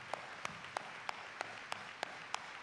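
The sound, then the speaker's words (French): A church audience rising to acclaim claps in rhythm: eight sharp, evenly spaced claps in a steady beat, faint and without other sound. “L'Assemblée s'élève pour acclamer.”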